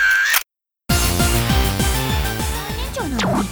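A camera shutter snaps as a photo is taken, a brief mechanical click set against a dense, steady background sound.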